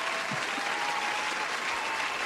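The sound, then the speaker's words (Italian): Applause rings out as a steady, dense patter of many hands clapping, holding evenly at moderate volume throughout. “Ecco qua un bel applauso, prendiamocelo.”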